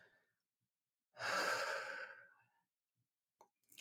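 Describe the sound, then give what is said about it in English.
One slow, deep breath, a long and fairly loud rush of air that swells quickly and then tapers away into quiet. “maybe just take a deep breath”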